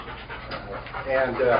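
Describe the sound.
A police department's drug-detection dog pants in quick, rhythmic breaths while a person talks over it.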